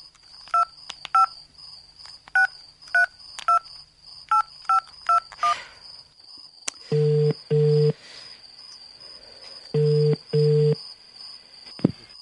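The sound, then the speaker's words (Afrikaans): A telephone call is dialled and rings. A quick run of short, sharp keypad beeps comes first, then two paired bursts of a steady ringing tone with a pause between them. “Ek moet vir Astrid bel. Sy sal weet wat om te doen.”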